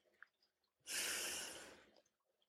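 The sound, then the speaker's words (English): A single slow, soft breath during a guided breathing prayer, a smooth airy hiss that swells in and then tapers gently away, with quiet surrounding it. “We breathe out our stress, breathe in God's deep peace. We breathe out our agitation,”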